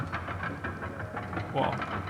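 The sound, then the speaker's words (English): Hand crank being turned, producing rhythmic mechanical clicking and rattling strokes in a steady repeating pattern over low background noise. “The crank is killing the bit right?”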